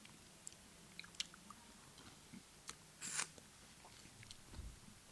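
Faint crunchy biting and chewing on dill pickles. Soft, scattered clicks build to one louder crisp crunch midway, then quieter chewing follows, with no talk.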